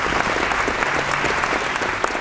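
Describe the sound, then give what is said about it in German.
Applause from a premiere audience at a theatre play, steady dense clapping that stays loud and even throughout without a break. “Das Premierenpublikum hat mit wohlwollendem Applaus und Schmunzler auf das Stück reagiert.”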